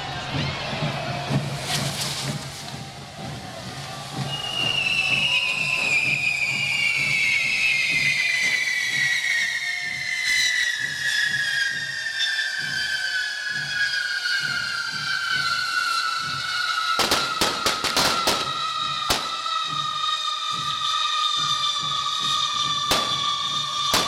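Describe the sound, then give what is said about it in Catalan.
Sustained hiss and shrill whistling of fireworks spouting from a fire-breathing dragon figure being lit, the whistle slowly falling in pitch, with a few sharp cracks near the end. “A dins el drac, a punt, a punt. I vinga, segona encesa del drac.”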